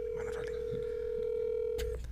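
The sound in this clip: A telephone call ringing out while waiting for an answer: a steady ring tone holds one pitch for nearly two seconds and then cuts off.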